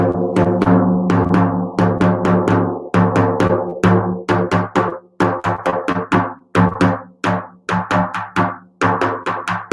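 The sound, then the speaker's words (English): A hand drum plays a syncopated variation on a shamanic rhythm: many resonant, ringing strikes in uneven groupings with shifting accents and short gaps, steady and fairly loud throughout, with no voices. “If I were just to make a syncopation out of it, for instance.”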